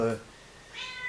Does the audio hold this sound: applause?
no